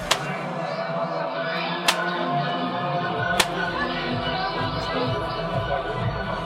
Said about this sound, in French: Donc vous pouvez entendre ce bruit caractéristique qui est le bruit d'un fouet qui touche sa peau.